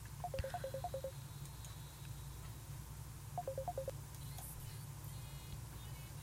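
Telephone call tones, two quick runs of electronic beeps, come through faintly over a low, steady hum while a caller is put through during a church prayer program.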